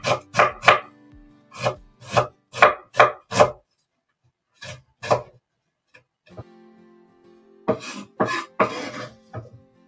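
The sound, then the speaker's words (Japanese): Knife slicing an onion on a cutting board while tuna salad is prepared: a series of crisp, sharp chopping strokes in quick bursts, separated by pauses. “今ね、玉ねぎをスライスしてます。”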